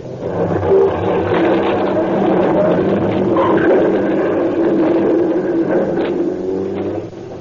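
A getaway car's engine revs hard as the car drives off through the back of a garage, a loud, sustained roar that holds steady throughout.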